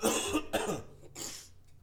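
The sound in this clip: Coughing from someone with a chest cold: a few harsh, raspy bursts in quick succession, loud and unaccompanied by speech.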